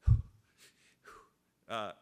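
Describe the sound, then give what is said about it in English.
A voice imitates breathing, meant as two short breaths in and one out: a few soft, quick breathy puffs followed by a longer, voiced, buzzing exhalation. “I realized that I had to do two short breaths in, one breath out. So I was going,”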